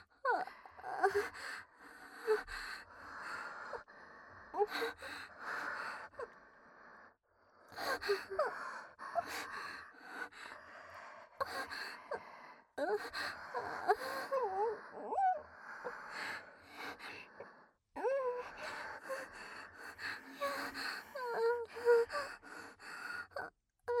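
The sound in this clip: Heavy, uneven breathing carries on throughout, with many irregular breaths broken by gasps and sighs, fairly soft and without talk.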